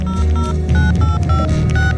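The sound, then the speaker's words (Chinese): Keypad tones from a mobile phone being dialed quickly: a rapid series of short electronic beeps, each at a slightly different pitch, with brief gaps between them. “盲巴从桌上拿起那只标本鸽子看了看，又从衣袋里掏出手机快速按了一串号码。”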